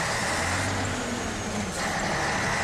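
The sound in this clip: A car drives off in first gear with a loud, continuous engine and road drone carrying low engine tones. It holds mostly steady, with a brief dip midway.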